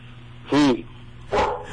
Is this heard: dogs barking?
yes